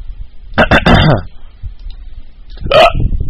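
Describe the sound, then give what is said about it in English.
A person hiccups and belches, producing a few abrupt, loud throaty bursts with a pause between them. A later burst carries a more voiced tone. “You're a symphony of sound. I am. Hiccuping and belching.”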